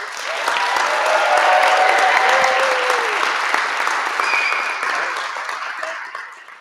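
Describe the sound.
A live studio audience claps, swelling quickly into loud, dense applause that holds for a few seconds and then slowly thins and fades out.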